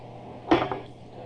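Utensil clinking against a pot or bowl during stirring, a brief clatter of two quick, bright knocks, the first louder, over a faint steady hum.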